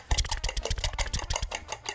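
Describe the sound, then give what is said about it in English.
A fork beating eggs to scramble them: fast, steady metallic clicking against a bowl, many even taps in a brisk rhythm, moderately loud with no voices. “he's got a fork and he's mixing, he's scrambling.”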